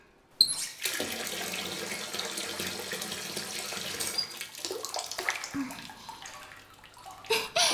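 Water runs from a tap into a bathtub filling a lukewarm bath, a steady, broad rushing hiss that wavers slightly before easing off near the end.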